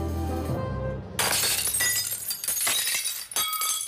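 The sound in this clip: A glass window pane is smashed: a loud crash bursts out about a second in, followed by a long, bright spray of tinkling, clinking shards that continues to the end.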